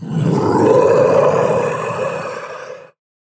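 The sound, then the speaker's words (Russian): A dragon roars as it thrashes on the ground, wounded with a mangled face: one loud, rumbling, growling roar lasting about three seconds, holding strong before tapering and cutting off abruptly, with no voices. “Дракон ревел, барахтаясь по земле”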